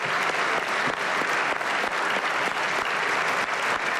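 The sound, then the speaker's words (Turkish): A long standing ovation for Erdoğan from a party group in the Turkish parliament's general assembly: dense, loud, continuous clapping with no break. “AK Parti grubu ise Erdoğan'ı uzun süre ayakta alkışladı.”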